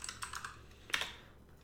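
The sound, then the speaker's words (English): Several quick, light keystrokes on a computer keyboard as a search for the first console is typed. Soft, irregular clicks come in a brief burst, pause, then a couple more taps. “Let me type, please.”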